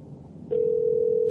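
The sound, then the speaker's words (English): The ringback tone of an outgoing phone call that goes unanswered: a steady, mid-pitched tone that starts partway in and holds at an even loudness to the end. “This is like fuck, eight rings. All right, we'll give it two more rings, and then we'll just have to stop.”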